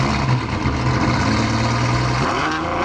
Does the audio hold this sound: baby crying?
no